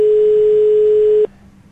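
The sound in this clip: Telephone ringing tone on a call, a loud, steady mid-pitched tone that cuts off abruptly after about a second, leaving a faint hum.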